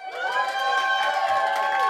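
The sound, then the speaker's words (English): A live studio audience cheers and whoops in a steady, loud burst of mixed crowd voices with high yells layered on top, lasting the whole short moment. “We have a live studio audience.”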